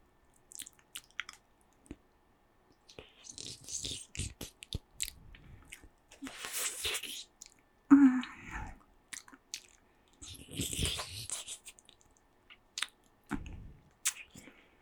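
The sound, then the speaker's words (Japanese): Wet licking and mouth sounds on the tip of a big food: irregular soft smacks, clicks and slurps with a few louder wet bursts, no talking. “先っぽを今なめなめしています。”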